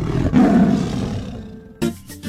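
A tiger gives one deep, loud, rumbling roar lasting about a second that fades out, followed by a shorter, abrupt second burst of sound.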